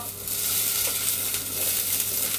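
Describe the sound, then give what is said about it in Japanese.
Onions stir-frying in a pan give a loud, steady sizzle, a dense continuous hiss with no break and no talk. “炒めるよ”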